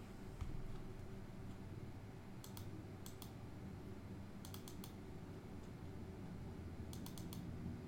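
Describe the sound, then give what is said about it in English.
Typing on a computer keyboard while entering text into a book cover design tool: a few short, quick bursts of clicks over a steady low background hum. “So I'm going to type in for Mystic.”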